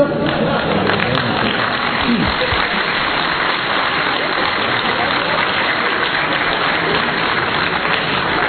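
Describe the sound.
Audience applause rolls on without a break, a dense rain-like patter of many hands that holds a constant loud level from start to finish.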